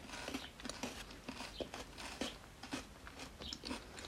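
Faint chewing of a corner yogurt with vanilla pudding and small balls. Many soft, crunchy bites and mouth noises come in an uneven rhythm with no talking.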